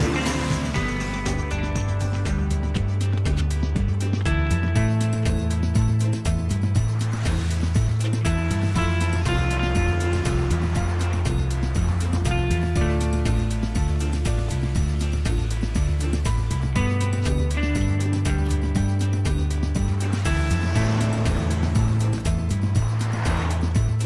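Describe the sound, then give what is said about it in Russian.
Cars driving along a road, a continuous, fairly loud rumble of engines and tyres that stays steady from start to finish. “День. Машины едут по дороге.”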